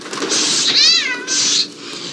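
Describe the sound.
A person vocally imitates the classic yowl of a terrified cat: one loud, drawn-out, wavering cry framed by breathy, hissing bursts just before and after it, with nothing else heard.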